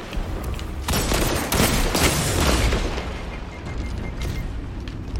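A grenade explodes amid gunfire in a video game, with loud, booming bursts merged with rapid shots into a dense, continuous barrage of combat noise and no voices.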